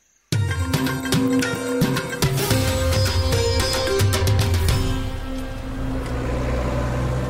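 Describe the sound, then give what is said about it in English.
An old red jeep's engine drones as it drives along an unmarked dirt track and crosses a railway line. A loud, steady hum is punctuated by many sharp rattling knocks and bumps. “an old red jeep swings off the road, drives along an unmarked dirt track and crosses over the railway line”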